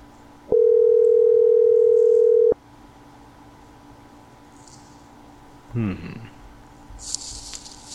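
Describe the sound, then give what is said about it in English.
A telephone dial tone sounds as a steady, unbroken pitch for about two seconds, then stops abruptly. Quieter handling noise and faint scattered rustles follow. “Is it dialing or not?”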